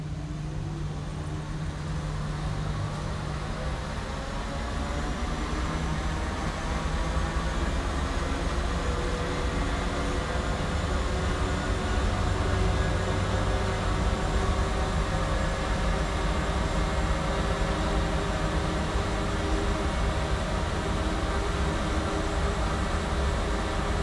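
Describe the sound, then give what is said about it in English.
A Gatwick Airport transit shuttle train runs to the South Terminal with a continuous, even rumble and a steady tonal hum, holding a constant level for the whole stretch without any speech. “Hold tight, please. Gatwick Airport, in association with Canadian Club Whiskey, welcome you aboard the transit for the South Terminal.”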